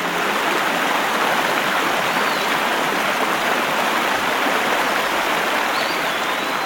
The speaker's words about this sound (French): les chutes du Sirion, là où le fleuve s'engouffre sous terre avec un bruit de tonnerre.